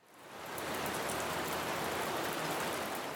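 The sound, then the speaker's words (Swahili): Heavy rain pours down in a dense, steady hiss that swells in over the first half second and then holds constant and full. “Sasa kabla ya kusikia zaidi kuhusu hali ya hapa, hebu tuisikilize nguvu ya mvua inavyonyesha.”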